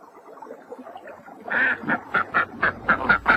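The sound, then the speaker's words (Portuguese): Duck quacking in a rapid series of about eight loud, evenly spaced nasal quacks that follow a quieter stretch of low, muffled background sound. “Pato. Você ouviu isso?”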